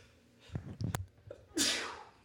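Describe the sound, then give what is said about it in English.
A single sneeze: a few quick, catching intakes of breath build up before one loud, breathy burst that trails off. “I shut my mic off before I sneezed. Yeah, bless you. My mic might have picked it up”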